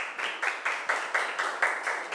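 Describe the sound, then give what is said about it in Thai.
A Thai language class claps together for a classmate's correct answer. The claps are steady, evenly spaced and in unison, about nine in a quick, regular rhythm at moderate volume. “ปรบมือให้เพื่อนหน่อยค่ะ”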